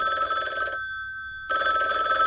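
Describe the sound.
A telephone bell rings in two loud bursts separated by a short silent gap, a bright steady trill with no voices.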